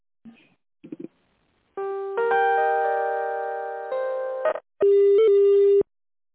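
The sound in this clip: Electronic telephone tones play while an office call is transferred to a manager. Two brief faint blips come first, then a sustained multi-note electronic chime that shifts pitch partway through, then a single steady loud beep. No voices are heard.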